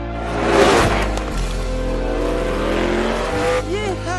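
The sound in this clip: Race car engines roar in an animated film's car race, three cars battling for the lead with ten laps left; a loud, sustained engine drone with tire noise, and a higher engine whine swelling and falling near the end.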